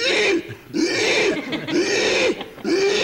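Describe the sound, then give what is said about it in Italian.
Pigs squealing as they are slaughtered at a cured-meat factory: loud, harsh, shrill squeals in a few long, sustained bursts separated by brief dips, with no talking. “ammazzavano 500 maiali ogni mattina e noi avevamo proprio la presenza fonica di queste 500 uccisioni, che erano così.”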